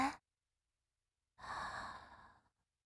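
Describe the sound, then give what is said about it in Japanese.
A slow, soft breath, airy and quiet, is taken during a guided breathing exercise. It stretches for about a second after a short sound at the start, with silence around it. “声に合わせて呼吸してみて。吸って、吐いて、”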